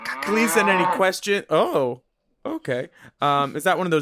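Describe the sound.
Cow mooing in a few drawn-out, tonal calls that waver in pitch, separated by short pauses and one clear silent gap before the last loud call.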